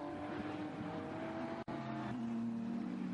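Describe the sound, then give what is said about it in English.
A BMW race car engine screams around a racing circuit in a loud, steady high-revving drone. It cuts out for an instant, as at a gear change, then resumes on a slightly different pitch. “And now forward in towards fifth position for the BMW.”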